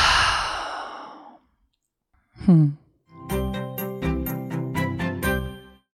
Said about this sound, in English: We're going to take another full deep breath. Inhale. Let's open the mouth and exhale.